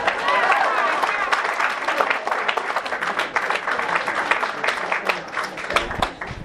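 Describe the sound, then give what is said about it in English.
Audience applause at a stage show: dense, steady clapping for about six seconds, with voices mixed in among the claps. “Another big round of applause.”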